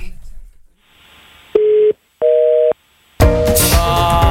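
Telephone line tones as a call is dialed again: two steady, loud beeps of slightly different pitch, separated by a short gap, followed by a louder, noisier burst of sound.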